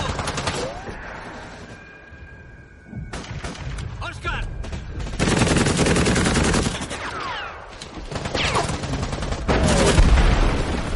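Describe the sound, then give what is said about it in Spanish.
A World War II film battle: a tank fires on the enemy line amid gunfire, with a bazooka round striking the tank. Loud bursts of rapid shots and heavy booms come in several waves, separated by quieter stretches. “El tanque dispara a la línea enemiga. El proyectil de un bazooka impacta en el tanque.”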